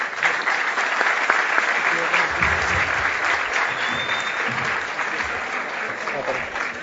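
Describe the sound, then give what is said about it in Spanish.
Audience applause welcoming the speaker at a conference lecture on sex education: dense, steady clapping from a crowd that holds at an even level for the whole stretch, without dying away. “Así que lo recibimos también ahí con un aplauso.”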